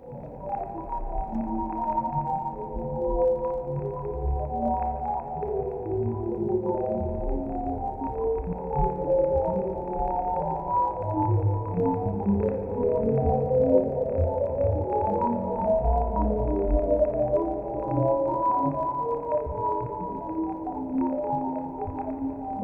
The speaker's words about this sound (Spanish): Las estrellas y las galaxias compactas crean tonos cortos y claros, mientras que las galaxias en espiral, en expansión, emiten notas más largas que cambian el tono.